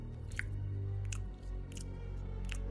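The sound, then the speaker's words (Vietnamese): Someone eating and chewing, a sound effect in an audio story set in a quiet house at night: a few soft, wet clicks and squishes over a steady low hum, with no talk. “Quân nhận ra đây như là một tiếng ai đó đang ăn uống”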